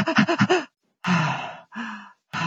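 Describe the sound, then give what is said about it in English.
A voice imitates a baby's irregular breathing: five quick, short breathy puffs in a fast run, then a pause and a few longer, slower breaths separated by silences, clear and unaccompanied. “and so they go in and out of this fast, slow breathing”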